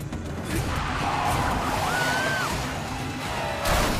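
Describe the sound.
A car speeds down a road full of puddles, a continuous loud wash of rushing tire and splashing water noise that holds steady for several seconds.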